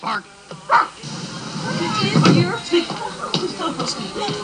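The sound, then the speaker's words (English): A dog barks in a film scene, giving a few short, sharp barks and yips over a busy soundtrack. Voices talk through much of it. “I think that's a dog from Married with Children.”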